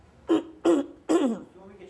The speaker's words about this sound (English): I clear my throat.